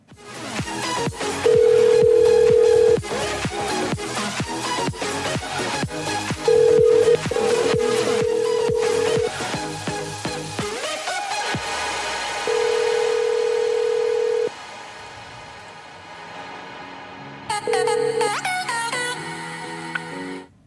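A telephone ringback tone sounds during an outgoing call as several steady, even-pitched beeps of varying length, separated by pauses, over a dense, busy background.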